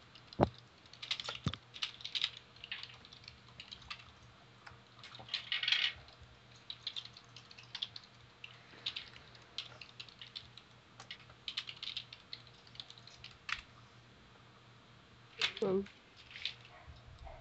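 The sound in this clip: Typing on a computer keyboard during an online tabletop role-playing game session: many irregular, quick key clicks with a few louder bursts, over a steady low background hum.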